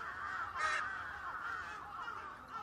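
Crows cawing in a run of harsh, hoarse calls. Several overlapping caws come in sequence, the loudest early on, over a steady background.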